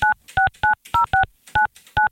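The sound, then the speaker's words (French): Telephone keypad tones as a number is dialed: seven crisp, evenly spaced two-tone beeps, each short and loud, with no voices. “Et là, ça me tente de lâcher un petit coup de fil à la gagnante d'aujourd'hui. On va essayer de l'appeler voir.”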